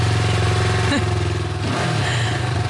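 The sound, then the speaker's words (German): A motorcycle engine drives off, running loudly and continuously with a low throbbing note that shifts pitch briefly a couple of times as the bike gets under way. “Jetzt fahren Sie Motorrad, das frisst ja nicht so viel Sprit wie ein Auto.”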